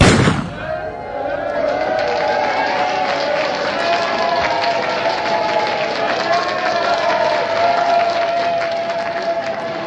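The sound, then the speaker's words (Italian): A starting pistol fires once at the start of the North Cape race: a single sharp, loud crack opens the moment. A steady wash of crowd noise and movement follows as the group sets off. “Lo start della North Cape è con una pistola, per cui segnano tutti sulla linea di partenza e poi c'è una persona che spara e si parte tutti in questo modo.”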